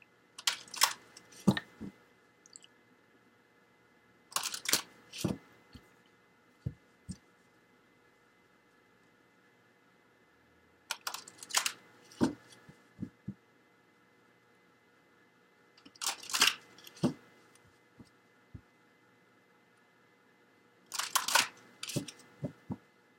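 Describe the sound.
Cards drawn from a deck make five short clusters of crisp flicks and snaps, separated by long quiet pauses, with a few single soft ticks in between.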